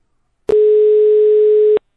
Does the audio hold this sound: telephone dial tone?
yes